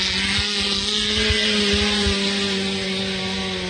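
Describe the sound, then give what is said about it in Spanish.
A racing car engine holds a loud, steady buzzing drone the whole way through, with a strong low hum. The pitch stays level, with no clear rise. “Acelera Forzani, también buscando el final, la máquina de Forzani.”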